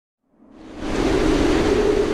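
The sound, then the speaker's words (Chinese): Howling typhoon wind with heavy rain: a dense, hissing roar that swells up from silence and settles into a steady, loud rush. “有一天，台风来了。在狂风的呼啸中夹杂着暴雨。”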